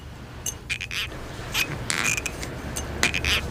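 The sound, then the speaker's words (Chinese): An empty bottle is opened with several short, squeaky creaks and clicks, as from a cap or stopper being twisted, coming in small clusters. The sounds are faint and no voices are heard. “直接把它打开了干啥呀？ 这不就是个空瓶子吗？”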